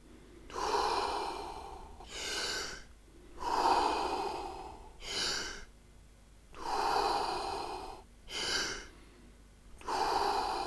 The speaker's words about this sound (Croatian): Fini, duboki, kružni dah. Udišemo mir, izdišemo stres. Unutra, van.